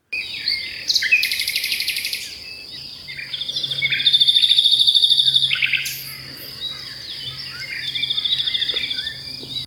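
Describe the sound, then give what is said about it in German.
Nightingale song: loud bursts of varied high trills, whistles and rapid repeated notes, rising and falling in intensity, over a faint steady buzz like crickets. “Nachtigall.”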